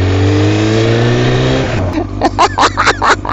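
A racing motorbike engine holds a loud, steady high-pitched drone, then its pitch sinks and breaks into a run of short, rhythmic revving bursts.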